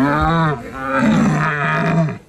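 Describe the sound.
A person imitates a deer stag's bellow through a telescopic wooden or plastic tube at a stag-call imitation contest. A single rough, rocky roar, loud and rich in tone, lasts about two seconds before fading out.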